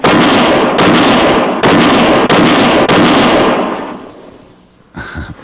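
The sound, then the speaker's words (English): Gunshots from a revolver quick-draw: a loud, dense burst of several sharp cracks over roaring noise that gradually fades, followed by a short thump at the end. “Yeah, that's mighty fine shooting”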